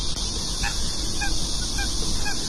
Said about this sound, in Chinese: 了。还有鸭子。挺安静的，这公园里头。